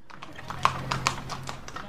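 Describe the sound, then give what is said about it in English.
Horse hooves clip-clop on a town street in a farming community in the Andes of central Colombia. Many crisp, fairly steady hoof strikes play over a faint, low hum. “Horses share the streets with cars and bikes in Jericó, a farming community of 12,000 in central Colombia.”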